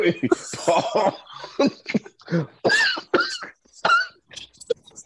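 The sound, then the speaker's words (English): A man in a fit of laughter coughs hard, with hacking coughs and throat clearing tangled with breathy, voiced laughs. Loud, irregular bursts run for about five seconds. “He's hacking up a lung over there because he's laughing so hard.”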